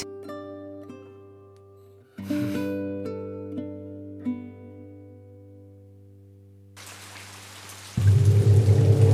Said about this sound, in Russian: Славно! Снова дождь идет.